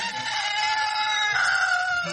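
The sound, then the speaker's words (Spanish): A rooster crows a second time, one sustained harmonic call lasting about two seconds, loud and steady, with a slight shift partway through and no voices. “En aquel momento cantó el segundo gallo.”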